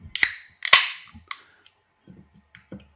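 Sharp cracks ring out as a bottle of Bullet Frontier bourbon whiskey is opened. A few crisp, loud snaps arrive in uneven succession, and faint rustling fills the gaps between them.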